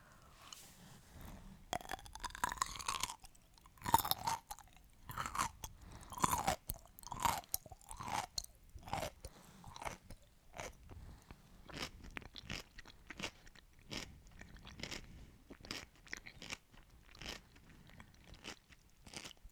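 Someone eating a pickle makes many crisp, wet crunches and chewing sounds in an irregular rhythm, quiet and without talk.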